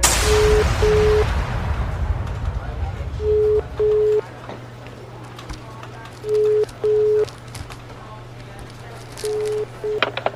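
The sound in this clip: A telephone line tone on a phone that is not working: four pairs of steady mid-pitched beeps repeating at even intervals over a noisy background hum.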